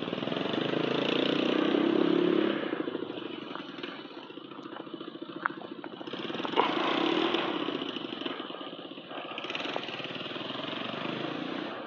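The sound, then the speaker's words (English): An ATV engine runs in the middle of a street with a buzzing, motorcycle-like drone that swells and eases several times, idling between louder revs. “for an ATV ride here in the middle of the uh, street.”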